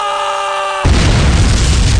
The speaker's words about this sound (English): Because that was kind of a bomb. Oh, it's a John Bomb!